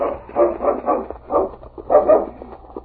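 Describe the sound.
A dog barks in a snowy outdoor rescue scene, giving several loud, separate barks in an uneven rhythm, with short gaps and a low steady rumble beneath them.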